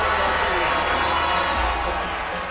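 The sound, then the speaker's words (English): Protesters boo and jeer at a county meeting voting on a water project, a loud, continuous mass of crowd voices that eases slightly toward the end. “Despite the booing, the project was approved unanimously.”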